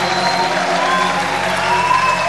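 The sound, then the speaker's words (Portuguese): An audience applauds at a religious service with dense, continuous clapping and crowd noise at an even, fairly loud level. “Se essa sua verdade pra ele, aplauda o nome de Jesus, aplauda.”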